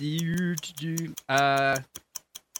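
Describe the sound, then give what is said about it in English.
Typing on a computer keyboard, heard as a short run of a few sharp, brief clicks near the end, following a louder tonal sound. “You use this to write on your computer. It's got letters on it, numbers, buttons, etc. Keyboard.”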